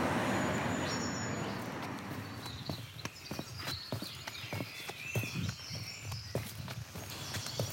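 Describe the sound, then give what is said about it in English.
Footsteps on a countryside footpath at the edge of a city: a steady run of soft, evenly spaced steps, faint over a low background hum. “So I've crossed the road now and I'm walking along Shepherd's Walk, which is a footpath that runs along the line at the edge of the urban fringe in the valley of Horsecombe Vale below.”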